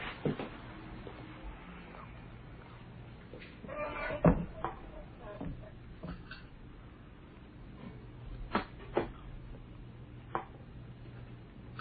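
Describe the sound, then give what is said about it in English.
A freezer is opened and items are taken out, giving quiet clunks and knocks scattered over several seconds, with a few sharper thuds above a low background. “I had to get some stuff out of the freezer anyway.”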